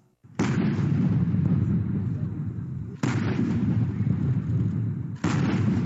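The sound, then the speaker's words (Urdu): Three booming rounds of a ceremonial artillery gun salute for the British queen's 90th birthday, each a sharp crack trailing into a long rolling rumble, spaced a few seconds apart. “یہ report ملکہ برطانیہ کو دی جانے والی سلامی کی جھلک سے شروع ہوتی ہے۔”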